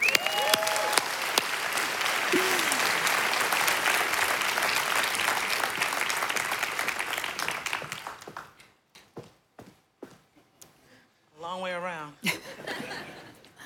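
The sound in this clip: A church audience applauds a worship leader: loud, dense clapping mixed with cheers for about eight seconds that then thins out and fades, followed by a short stretch of a voice speaking.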